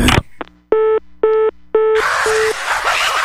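A telephone busy tone after a call is hung up: a click, then evenly spaced short beeps, three clear ones followed by a fourth that is partly buried under a sudden burst of loud hiss.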